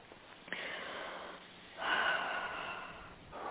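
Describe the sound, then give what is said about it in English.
A deep breath drawn during a guided healing meditation: two long, soft, airy swells of breathing, one after the other, with no talk over them. “And take a deep breath.”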